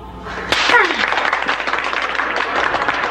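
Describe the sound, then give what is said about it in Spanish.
Audience applause for a professor: a dense, loud wash of clapping starts about half a second in and continues steadily to the end, with a voice calling out near the start. “Ay, profesor, es que usted se merece ese aplauso.”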